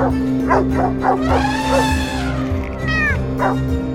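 Dog barking in a run of short, sharp yaps, broken by higher whining, whimpering tones, over a steady low hum.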